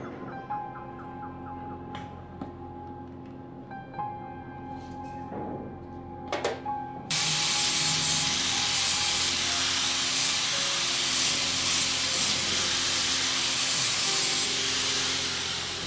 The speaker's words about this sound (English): I was just preparing that pipe before I cut it. I just wanted to grind it so I can get some of the rust off it, so then it's a better weld when I do start welding it.